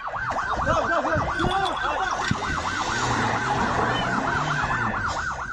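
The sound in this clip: A fire engine siren wails loudly and continuously in fast, repeating rising-and-falling sweeps as crews arrive at a burning tent city for earthquake survivors. A low rumble runs underneath, with no talk.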